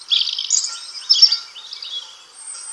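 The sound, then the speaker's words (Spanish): Birdsong of resident blackbirds and robins among thickets and hedges, a continuous high, thin twittering warble with bright trills and chirps, heard alone. “el paisaje sonoro está ocupado por las voces de las aves sedentarias, las que no se fueron. Mirlos en los rodales, petirrojos en los setos,”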